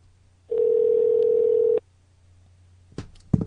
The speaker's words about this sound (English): She's not going to pick up. She probably sees the caller ID that it's you.